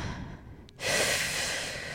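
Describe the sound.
A deep breath drawn in during a guided breathing exercise: after a near-silent start, one long, steady, airy inhalation begins abruptly and holds at an even loudness to the end.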